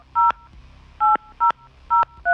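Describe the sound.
Touch-tone beeps from a telephone number being dialled: five short electronic tones at differing pitches, separated by brief gaps, with the last tone cut off.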